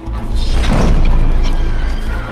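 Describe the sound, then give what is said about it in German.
A heavy crash as a spade strikes a skeleton rider's chest in a staged horror fight, a loud, dense roar of rumbling, clattering noise that holds steady for the whole stretch. “Er rannte herbei und hieb dem Knochenreiter den Spaten vor die Brust, dass es krachte.”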